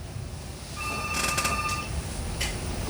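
An incoming messaging-app call rings on a phone before being answered: one steady, bright electronic tone lasting about a second over faint background hiss, with a few short clicks and rustles around and after it.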